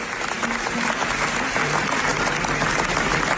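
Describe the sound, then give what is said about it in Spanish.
An audience at the Venice Film Festival gives a sustained ovation after a documentary screening, with dense, loud, steady applause from many hands throughout. “Tras la proyección, el público ovacionó durante 25 minutos a Yuval Abraham y a Rachel Sorr, los directores”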